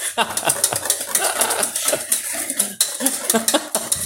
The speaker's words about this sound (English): So I was just frantically flailing that whisk around the ball.